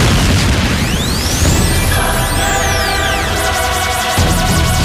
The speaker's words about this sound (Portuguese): Pronto! Bomba neles!